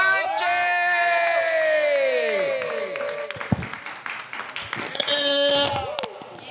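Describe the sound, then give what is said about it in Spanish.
Audience cheering and applause as a performer is welcomed on stage; loud whooping and rising, falling shouted voices dominate at first, then give way to looser clapping and more cheers. “Fuerte aplauso”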